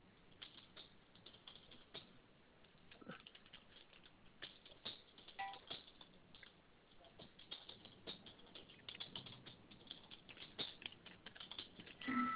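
Typing on a computer keyboard: many faint, irregular clicking keystrokes in quick bursts throughout, with a few louder taps near the end, no voices.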